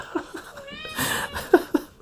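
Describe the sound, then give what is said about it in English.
A cat meows in short, high, wavering cries, with a few soft chirps and breathy sounds, ending in two brief sharper calls. “He's a good cat. But he's very meow meowy.”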